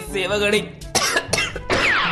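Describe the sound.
Coughing from a king complaining of a throat parched like a desert, a few harsh bursts after a rough, voiced throat sound at the start, loud and without other talk.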